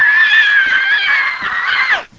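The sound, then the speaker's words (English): A man's voice imitates someone screaming and hollering, letting out one loud, high, drawn-out cry lasting about two seconds that drops in pitch as it cuts off. “He's a-screaming and a-hollering. He runs down the aisle. He gets right on national TV going just like this.”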